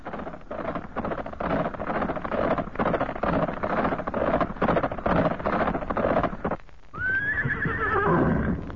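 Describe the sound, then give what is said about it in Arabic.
A horse gallops with a rider, hoofbeats pounding steadily for several seconds. After a brief pause comes a loud whinny that climbs and then trails downward. “لاح له فارس على جواد وهو ينهب به الأرض ويغريه على الركض ويتجه به إليه ويقبل عليه.”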